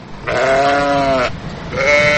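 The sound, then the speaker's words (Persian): Domestic sheep bleating in a zoo enclosure: two loud, wavering, nasal bleats, the first lasting about a second, the second following a short pause and cut off at the end. “این قفس همون طوری که میبینیم از گوسفند هست، گوسفند.”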